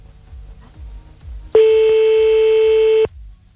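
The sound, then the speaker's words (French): A telephone ringback tone on an outgoing call: one loud, steady, mid-pitched tone held for about a second and a half, with quiet low rumbling before and after it. “Allez, c'est parti, on y va, on appelle maintenant”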